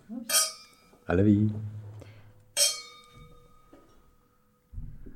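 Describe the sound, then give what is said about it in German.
Wine glasses clink twice in a toast at a Spanish wine tasting, each a bright, ringing chime that fades slowly, with a voice speaking between them. “Okay, komm, probieren wir den. Der nächste. Röstli. Cheers.”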